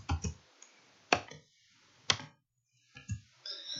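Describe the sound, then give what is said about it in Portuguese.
Computer keyboard keys pressed, a down-arrow and an enter key among them: a few sharp, quiet clicks separated by pauses, with no talking. “Dei uma seta para baixo e um enter, ok?”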